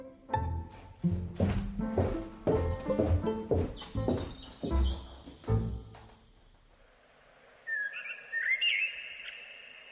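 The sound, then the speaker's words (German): Blackbirds sing on a spring evening in April. A few soft, high, fluting phrases enter in the last seconds, after a stretch of louder resonant tonal notes. “Im grünlichen Licht eines Aprilabends flöteten Amseln das alte Triumphlied des Lebens.”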